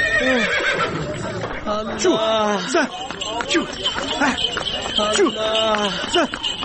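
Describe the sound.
A horse pulling a buggy whinnies several times, with loud, wavering neighs rising and falling in pitch over a busy background of voices.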